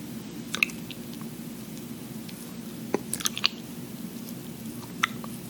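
Wet tongue-licking sounds: a few soft, squishy smacks and clicks scattered sparsely over a quiet, steady background hiss.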